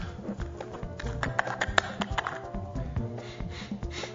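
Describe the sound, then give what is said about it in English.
The lid of a Bovril jar is peeled off and opened, a faint run of small clicks, taps and crinkly snaps at an uneven rhythm. “to start peeling off the lid. Our first contestant is Bovril. Okay. And this is the first opening of the jar.”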